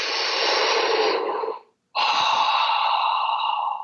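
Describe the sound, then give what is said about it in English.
A deep breath drawn and released: two long, loud, breathy rushes of air with a short silent gap between them, and no talk. “I'm going to take a deep breath.”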